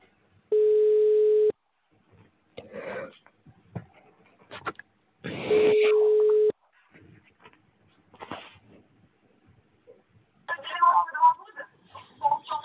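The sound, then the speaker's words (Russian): Ringback tone heard while a call to a subscriber is being connected: two long, steady, mid-pitched tones a few seconds apart, with voices speaking between and after them. “Повторный дозвон. Начинаем звонить абоненту. Ожидайте соединения.”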